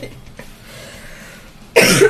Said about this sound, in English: I'm sorry, I didn't mean to cough.